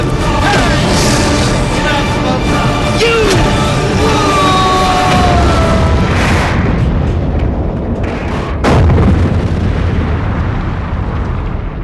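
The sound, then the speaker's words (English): Starship weapons fire and explosions ring out as a loud sci-fi sound effect: whooshing, sweeping energy tones over a heavy rumbling bed, broken by a few sharp blasts in the latter half. “We are under attack. Fire, Mr. Scott.”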